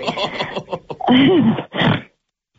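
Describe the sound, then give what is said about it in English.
Nervous snorting: a couple of loud, harsh nasal bursts follow a short stretch of breathy vocal sounds. “Sorry, I snort when I'm nervous.”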